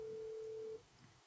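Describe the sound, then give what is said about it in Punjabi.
A telephone tone signals a disconnected call: one steady, mid-pitched beep holds for under a second, then cuts off abruptly, leaving only faint line hiss. “ਤੁਹਾਡਾ disconnect ਹੋ ਗਿਆ ਜੀ phone.”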